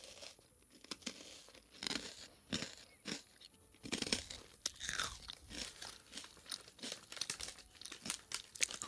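Crunching and chewing of crunchy french fries and snacks, with crinkling of packaging: many irregular, sharp, crisp bites and rustles follow one another, fairly loud and close, with no talking.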